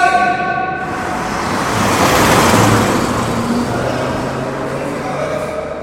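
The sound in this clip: A car speeding past and nearly running someone over, a loud rushing roar that swells to a peak around the middle and then slowly fades.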